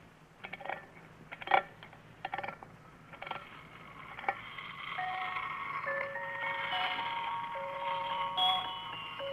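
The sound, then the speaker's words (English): A wind-up toy merry-go-round gives a few sharp clicks, then spins and plays a thin, bright, tinkling melody that carries on steadily to the end. “it's a little toy merry-go-round. Well, what do you want that for? Well, now, here, let me show you. First, you wind it up, and then you release the lever, and it spins around and plays music.”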